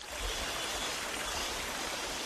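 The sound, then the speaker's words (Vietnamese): Babbling of a small stream running past a table at a Red Dao community cooperative in the mountains of Lào Cai: a steady, soft, continuous rush of water with no breaks. “Tiếng róc rách của dòng suối nhỏ chảy ngang bàn, xen lẫn tiếng cọ rửa bồn ngâm bằng gỗ vang lên lạch cạch đều đặn.”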